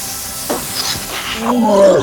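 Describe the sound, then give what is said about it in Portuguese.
A voice imitates a young green dragon spitting acid, with a breathy hiss that swells into a rasping, growling roar toward the end. “eu formo uma cabeça de um dragão, que é um dragão filhote. É menor. É, verde, menorzinho eu faço assim, a hora que eu abro a boca dele, dá um, um cuspe de ácido.”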